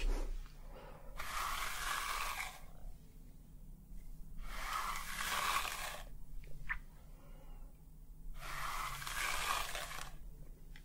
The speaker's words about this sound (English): So, before we go ahead and wash the hair, I'm just going to give it a quick brush through.